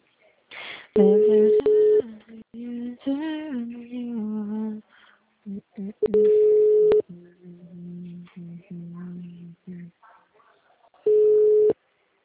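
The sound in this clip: Telephone line tones from a call that will not go through and does not even reach voicemail: three long, steady electronic beeps at spaced intervals, with a voice speaking between them.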